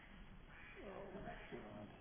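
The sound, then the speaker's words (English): A phone ringtone of duck quacks: a few faint nasal quacks sounding quietly in the middle of the moment. “Sorry, you guys. My duck is ringing.”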